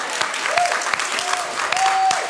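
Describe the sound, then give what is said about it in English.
Audience applause at a church service celebrating baptisms, a steady wash of many hands clapping for a couple of seconds, with a voice speaking over it. “I was hoping you guys would clap. Can we clap for that?”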